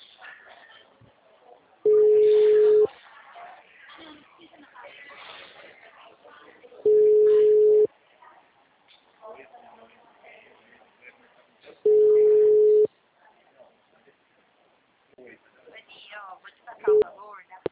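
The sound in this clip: A telephone ringback tone sounds on a call: three long, steady, loud beeps spaced about five seconds apart, with faint voices and line noise between them.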